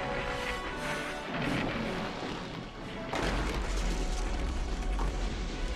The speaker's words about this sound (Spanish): Choca contra el otro lado donde están los demás. El fragmento cae al vacío.